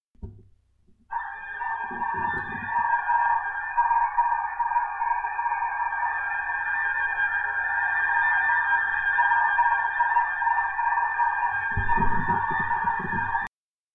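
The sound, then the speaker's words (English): A narrow-band digital-mode radio signal of the ticker-tape text type: a steady, grating buzz-like tone held for about twelve seconds, with brief low rumbling bursts near its start and end. “It's a ticker tape type of display, and it has a very distinctive grating sound, and it is a very narrow band signal. So let's click on it.”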